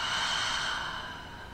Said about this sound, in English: Again, deep breath in and out. Another one, deep breath in and out.